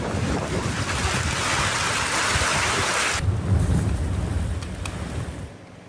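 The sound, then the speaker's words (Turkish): A sudden heavy downpour in a city centre where roads are flooding, heard as a dense, steady roaring hiss. Partway through it turns duller and darker, with low rumbling underneath. “Kayseri'de de bir anda bastıran sağanak vatandaşlara zor anlar yaşattı. Kent merkezinde yollar suyla doldu, sürücüler ilerleyemedi.”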